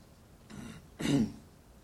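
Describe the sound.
Throat clearing during a church service: two short, rough bursts, the second louder and harsher, heard alone and fairly faint.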